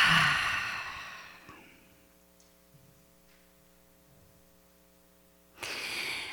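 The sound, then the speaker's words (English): A deep breath drawn in, heard as a broad airy rush at the start that fades into near silence with a low steady hum, before another breathy rush returns at the very end. “Let us just take a deep breath in.”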